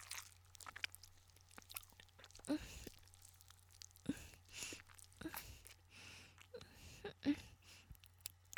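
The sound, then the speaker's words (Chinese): Someone chews and bites an ice pop: several crunchy bites and soft wet chewing, quiet and irregular. “我在吃冰棍，这里的冰棍还不错。”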